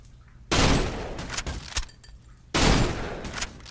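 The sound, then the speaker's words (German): Gunfire in a video game: two loud, dense bursts of rapid shots separated by a short lull, with scattered sharp cracks in between. “Ich schieße jetzt auf wie so ein verdammter Noob.”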